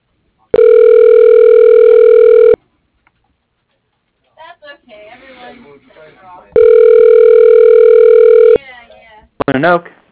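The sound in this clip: A phone call rings after an automated company menu: two long, steady ring tones of about two seconds each, with voices talking in the gap between them and again just after.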